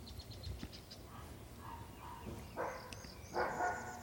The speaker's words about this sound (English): There's a dog barking, probably at a squirrel, hopefully at a squirrel. There's another dog barking.